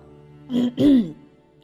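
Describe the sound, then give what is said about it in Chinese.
A voiced throat clearing, performed for a tiger character in a children's story about three tigers and a duckling: two short, rough bursts, the second longer and rising, heard alone. “他舔舔爪子，清清喉咙。”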